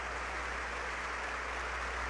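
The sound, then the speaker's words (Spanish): Faint, steady applause from an assembly at a religious gathering honoring consecrated religious sisters: an even, continuous wash of clapping with no distinct single claps. “Un aplauso para todas nuestras hermanas que han consagrado su vida al Señor.”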